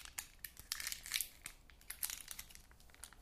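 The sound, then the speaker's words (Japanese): Crinkling of a plastic condom wrapper torn open by fingers at an empty edge: a faint, dense run of many sharp, crackly rustles and snaps with no voices. “そして袋の何もない部分を指で切る。”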